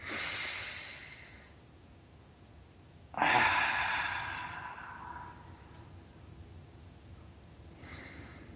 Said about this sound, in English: we want you all to take a couple of deep breaths. I notice your body just giving up its tensions when you do that.